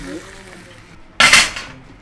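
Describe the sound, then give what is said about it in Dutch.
A single sharp metallic clatter as bacon is lifted out of a frying pan onto a slice of bread, breaking a quiet stretch and fading away over about half a second. “En dan is het tijd om het uit de pan te halen en op de boterham.”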